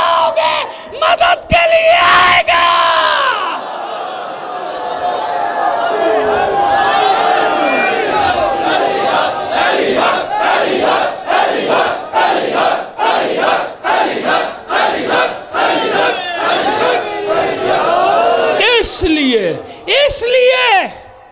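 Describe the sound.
A crowd chants the Nara-e-Haidari slogan, the cry in praise of Ali, loud shouted bursts repeating many times in steady rhythm over about twenty seconds.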